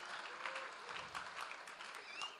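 Steady audience applause, many hands clapping in a continuous, even wash of sound throughout.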